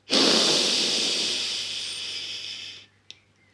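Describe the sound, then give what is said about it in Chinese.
A single long, deep breath during a guided children's meditation, a strong breathy hiss that slowly tapers over nearly three seconds, followed by a faint small click. “那现在就和姐姐一起来做三次的深吸和吐气喽，来。我们深深的吸气，”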